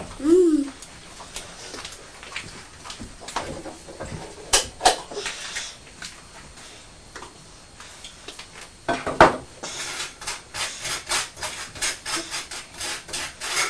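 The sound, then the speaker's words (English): Butter is spread on toast with repeated dry, rasping scrapes that come in uneven bursts and grow busier toward the end. Voices talk intermittently over the scraping. “Putting some butter on the toast.”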